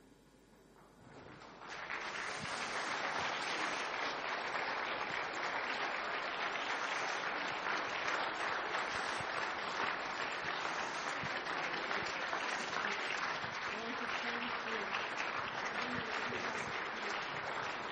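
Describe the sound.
Audience applause for people called forward to receive small gifts. A faint start swells into loud, dense clapping after about two seconds, then holds steady for roughly sixteen seconds with no talking.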